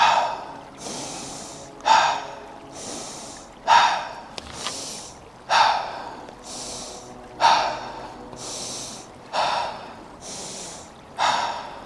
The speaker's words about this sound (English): Now we go straight back in with a single inhale, single exhale. With me again, 3, 2, and 1. Inhale, nose. Exhale, mouth.